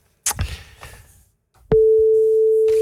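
A steady, unbroken telephone line tone sounds while a call is being dialled. It comes in loud and constant after a stretch of soft clicks and rustling, and holds to the end.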